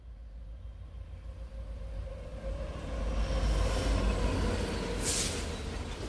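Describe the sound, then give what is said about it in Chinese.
A train runs on rails as a sound effect: a continuous, broad low rumble that swells midway and holds steady, with a brief high hiss near the end. “各位旅客，大家好，欢迎您坐到1314的列车，开往幸福村。”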